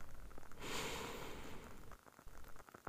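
A long, slow, deep breath in taken during a guided breathing exercise: a steady, airy inhalation that swells in just over half a second in, holds strongly for over a second, then thins into quieter breathy rustle, with no talking.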